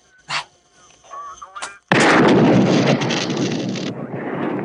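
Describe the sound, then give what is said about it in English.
A single gunshot fired at a police radio: one sudden, loud blast followed by a sustained burst of harsh noise that slowly eases. Brief, fainter sounds come before the shot. “Shoot the radio.”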